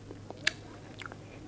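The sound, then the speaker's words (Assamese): Someone chews with a full mouth, giving faint, irregular wet clicks and soft crunches, with one sharper bite standing out among them. “খাবলৈ বেয়া নহয় দেই, চাওঁ এই সুদা পেটত নেখাবি বেছিকৈ। গালে গালে মুখত ভৰা, খকটো ডাঙৰ।”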